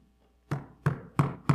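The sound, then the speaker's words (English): Four sharp knocks on a door, evenly spaced and fairly loud, each a short solid thud with a brief ring, with quiet before the first. “I'm standing at your door knocking. A knock at the door.”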